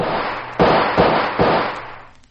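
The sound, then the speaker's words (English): Three gunshots fired at a fleeing man ring out as sharp, loud bangs roughly 0.4 seconds apart, each leaving a brief noisy decay before the next. “Stop or I'll shoot! He ain't stopping, Inspector. Then I'm shooting.”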